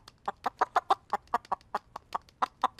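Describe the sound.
A hen clucks in a quick, uneven run of short, mid-pitched bursts, many in a row, with no other sound behind them.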